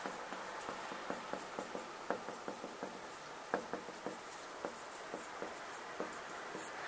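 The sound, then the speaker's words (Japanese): A marker squeaks and taps across a whiteboard in many short, quick strokes, faint and irregular, with no voices. “白板に書くのって難しいなと思って。”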